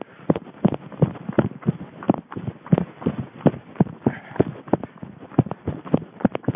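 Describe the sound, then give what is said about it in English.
Running footsteps on a mountain trail in Spain pound in a quick, steady rhythm, with many sharp footfalls following one after another at fairly even spacing for the whole stretch. “I'm in Spain, running on the mountain trail.”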